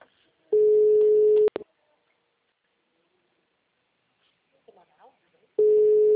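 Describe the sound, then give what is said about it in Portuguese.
Telephone ringing tone while placing a call: a steady mid-pitched tone of about a second, then a long quiet gap with brief faint speech, then the same tone again. “Não, tô tentando ligar.”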